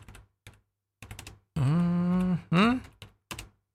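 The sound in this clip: Keystrokes on a computer keyboard come in short bursts of clicking and tapping as a search query is typed, with a hummed, sighing voice between the bursts of typing.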